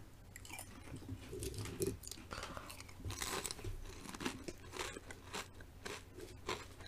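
Crisp crunching and chewing of lightly salted potato chips, many brittle bites and crackles in an uneven steady rhythm, with no talk.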